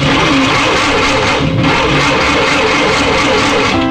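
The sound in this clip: A car engine with a weak battery cranks and fails to start, making a loud, continuous grinding churn that runs through the whole clip without settling into an idle.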